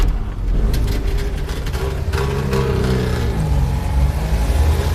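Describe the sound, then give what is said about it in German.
A Trabant car engine revs with a steady, rough mid-pitched drone. Its pitch wavers slightly as the throttle shifts, and it stays loud and unbroken throughout. “Ja, es ist der Trabi. Es war der Trabi. Hey, aber nicht so weit wegfahren, kleiner Trabi.”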